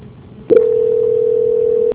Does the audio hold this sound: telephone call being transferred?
yes

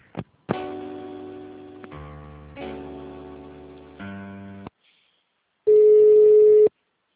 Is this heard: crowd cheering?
no

